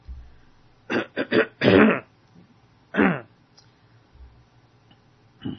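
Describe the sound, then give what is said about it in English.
Throat clearing during a church service: several short, harsh rasping bursts close together, then a longer clear and one more after a brief pause, with near silence between them. “Excuse me. I'm having trouble getting my throat cleared this morning.”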